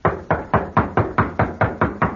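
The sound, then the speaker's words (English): Knocking on a door: a rapid, even run of many firm knocks at a steady rhythm, with no voices. “Knock again.”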